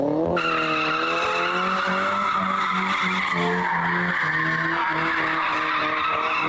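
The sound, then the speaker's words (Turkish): Tires squeal continuously as cars drift on a street in Ankara. The screech is loud and sustained, layered over a steady engine drone with no pauses. “Ankara'da araçlarıyla drift atan 11 kişi yakalandı.”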